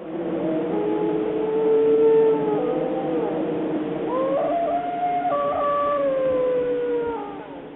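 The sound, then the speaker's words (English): Wild dogs howl in several overlapping, sustained wavering tones. The voices layer continuously at a steady, fairly loud level, with pitches sliding and shifting throughout. “And wild dogs.”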